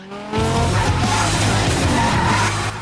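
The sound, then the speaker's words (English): A car engine roars as a Viper speeds away from a pickup truck on a rough street. After a sudden loud onset, a steady, powerful drone continues with skidding tires. “Clay spots his maneuver and speeds away from the pickup.”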